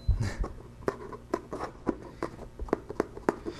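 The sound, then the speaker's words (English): Short scraping cuts as little bits are trimmed off to taper a wing toward its tip, many quick, crisp strokes in an irregular rhythm. “I'm going to flip it over and cut off a little bit more.”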